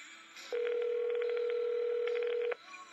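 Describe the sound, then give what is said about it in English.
A telephone ringback tone as a call is placed to a Vancouver number: one steady, even tone holds for about two seconds, then stops. “I have the Vancouver number in my phone. So who do you think we just called?”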